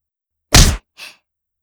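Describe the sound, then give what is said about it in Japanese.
A blow lands on a body with a sharp, loud thwack, followed a moment later by a softer, briefer second sound. “結構軽く打ったつもりですけど、やっぱりさっきのよりも痛かったですか？”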